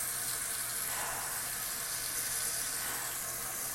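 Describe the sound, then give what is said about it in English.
Water running from a tap while a mop is rinsed under it, a steady, even hiss and splash that holds at the same level throughout. “I'm going to wring out the mop the best I can. And then rinse it.”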